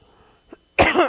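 During a sermon, a person coughs after something goes down the throat: a faint throat sound comes first, then one loud, harsh, rasping cough.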